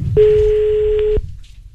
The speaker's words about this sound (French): Tu es prêt ? Allez, on appelle.